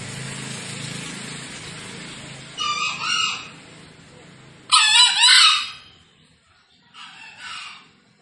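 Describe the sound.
Green junglefowl roosters, released to roam free, crow in three separate bursts over a faint background rumble. The middle call is the loudest and brightest, and the last is shorter and fainter.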